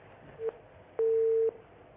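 A telephone busy tone sounds after a call-in to a show drops. A short low beep comes first, then a longer steady tone at the same pitch, heard faintly.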